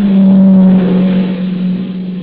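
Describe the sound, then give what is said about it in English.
A car engine drones loud and steady at a low pitch, easing off slightly toward the end, with no voices. “No, wait, here comes a car.”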